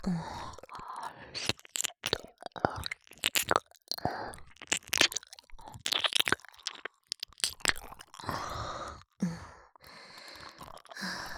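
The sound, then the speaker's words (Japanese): Wet licking and mouth noises from ASMR ear cleaning with the tongue: many irregular slurps, smacks and clicks in close succession, broken by breathy sighs and brief pauses. “こちらの耳の方が何かいっぱい溜まっています。しっかり舌でお掃除させていただきます。”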